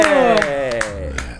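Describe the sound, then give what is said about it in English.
Hosts cheer on cue for a season debut: loud whooping voices whose pitch slides downward, broken by a few scattered claps. “That's the sound of induced cheering.”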